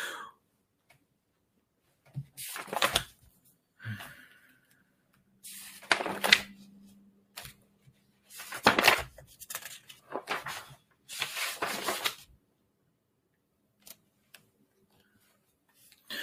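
Papers being leafed through by hand, several bursts of rustling and flipping separated by short pauses of near quiet, with a faint low hum in between.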